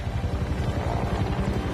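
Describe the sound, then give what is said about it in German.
Helicopters circling a burning reactor give a steady, rhythmic low rotor thumping that runs continuously at an even loudness, with no voices. “Hubschrauber kreisten um den Reaktor wie die Fliegen.”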